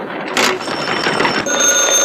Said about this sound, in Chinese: 立定，接电话。